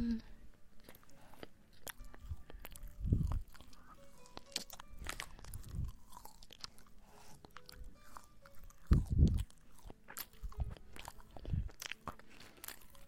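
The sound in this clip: Crunchy chewing of food, with a few louder bites and crunches standing out and quieter chewing in between, alone with no talk.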